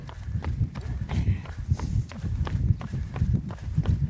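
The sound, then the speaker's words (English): Footsteps of people running outdoors in the wind, many quick thudding strides in a steady rhythm over a low, rushing background. “It's not so bad going this way. We're running with the wind.”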